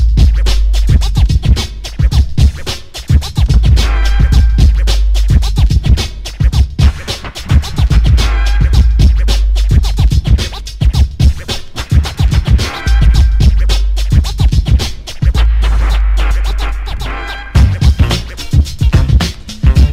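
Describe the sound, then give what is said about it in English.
DJ turntable scratch beat played with the whole hand held loosely on the record, loud rapid rhythmic scratches over a deep pulsing bass, continuing for the whole stretch with brief breaks. “Sometimes the whole hand can be held loosely and used to do a scratch beat. This would sound like this.”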